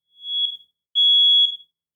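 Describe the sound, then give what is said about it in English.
A smoke detector alarm, set off by roasting food, sounds a piercing high-pitched steady tone in three loud beeps with short gaps between them. The third beep is cut off at the end, and no other sound is heard. “Sometimes food speaks to us through the smoke detector, like roasting chilies that scream, I've got bold, smoky flavor.”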